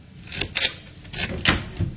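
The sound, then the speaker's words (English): A door being opened, heard as a few quiet clicks and knocks from the handle and frame in a short uneven sequence. “please open the door”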